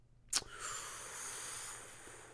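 A person takes a short, sharp breath in, then lets out a long, steady, hissing exhale, faint and with no talking.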